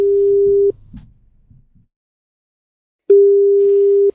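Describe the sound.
A telephone dial tone heard while a call is being placed: a steady, loud, mid-pitched hum that cuts off, gives way to a few soft clicks and handling noises, then returns unchanged after a pause of silence.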